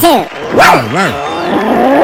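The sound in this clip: A person imitates a dog barking with a few voiced, yapping woofs that rise and fall in pitch and run into a longer, rougher bark.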